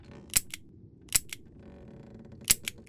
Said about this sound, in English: She aims at his head and pulls the trigger. She tries again.